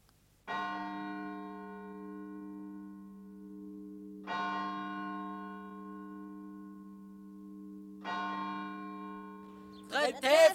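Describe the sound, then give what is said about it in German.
A church bell rings from the tower of a hospital chapel, three slow, widely spaced strikes. Each one blooms into a long, steady ringing tone that hums on between the blows. “Nickt die Glocke vom Turm der Krankenhauskapelle.”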